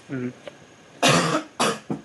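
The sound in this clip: A few harsh, loud coughs break out in quick succession, the first one longer and rougher, the next two short bursts, after a brief stretch of softer voice.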